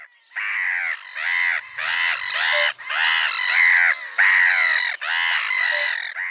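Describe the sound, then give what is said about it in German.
A black-headed gull colony calls in a dense, loud chorus of harsh, overlapping squawks and cries. It runs almost unbroken, with only short dips between bursts. “Also ich weiß nicht, ob ihr Lachmöwen, Kolonien sind unglaublich laut. Ich habe auch einen Ton mitgebracht. Ich spiele den mal ab.”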